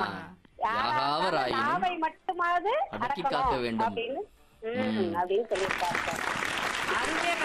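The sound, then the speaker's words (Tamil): Audience applause breaks out after a stretch of a person speaking, filling the last two seconds with dense, steady clapping. “இதோ நம்ம audience வந்து பரத கரகோஷமும் கொடுத்துட்டாங்க.”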